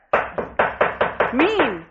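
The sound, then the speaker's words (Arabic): Rapid knocking on a door in a radio drama: six sharp, evenly spaced raps, loud and hollow, followed by a brief pitched voice. “يا ربي، ده مين اللي بيخبط كده؟”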